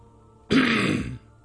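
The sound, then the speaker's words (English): A man clears his throat once in a short, raspy burst of under a second, alone against near silence. “He cleared his throat and spoke in Dragonese.”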